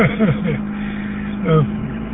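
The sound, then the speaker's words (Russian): A car parked nearby idles while its engine warms up, heard from inside another car as a steady low hum throughout, with a voice speaking briefly over it. “тут рядом машина завелась, и вот гудит машина, греет моторчик там, никак не отъедет, надоел уже”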